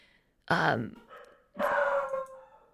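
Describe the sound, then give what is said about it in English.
A puppy barks in two drawn-out, yelping bursts, each sliding through a voiced, whiny tone and fading out. “that's my puppy.”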